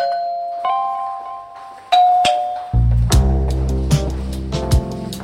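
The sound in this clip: A doorbell chime at a home's front door rings out in a few clear, bright tonal notes, then gives way to fuller, lower sustained tones.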